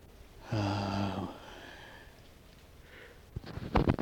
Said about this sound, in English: I hate to start that yawning business already.